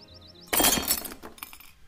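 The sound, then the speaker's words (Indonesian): A clay water jug is smashed on the ground with a sudden loud crash. Bright shattering follows, then scattered fragments clatter and settle over the next second. “Apa yang kau lakukan, Nona? Kenapa kau membanting kendi itu ke tanah?”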